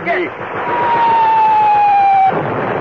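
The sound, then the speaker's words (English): A belt-fed machine gun fires in a radio drama war scene: one sustained, dense rattle of rapid shots lasting a little over two seconds, loud and even, with a thin high whine running over it before the firing cuts off. “I keep the belt stretched. You feed as I fire. I'm swinging her around to the right.”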